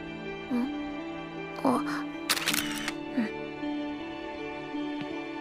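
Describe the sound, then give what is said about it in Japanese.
A camera shutter takes a photo: a quick cluster of sharp mechanical clicks near the middle, set among brief voiced sounds and a steady tonal background hum. “カメラっていいよね。撮っておくと忘れないし。”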